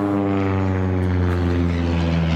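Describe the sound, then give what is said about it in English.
Small aeroplane flying low overhead: a loud, steady propeller drone with strong humming harmonics that holds throughout, with no voices. “We've just been interrupted by a small aeroplane saying good morning to us as it flew low.”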